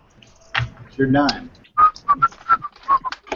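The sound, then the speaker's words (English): A person whistles a tune, a lively string of short, bright notes in a bouncy rhythm that follows a brief moment of talking. “Whistling Dixie all the way.”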